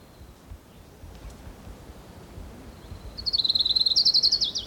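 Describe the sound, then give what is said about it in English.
Song of an orange-crowned warbler: a high, rapid trill of many even notes that enters late and holds loud to the end, over a low, steady background hiss. “Here's Orange Crown Warbler number 3.”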